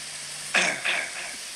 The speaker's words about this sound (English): I like that he cleared his throat